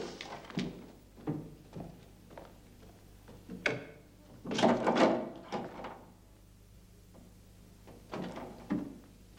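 A wall closet door is opened with several soft knocks and thuds, and a longer scraping rattle in the middle, all fairly quiet.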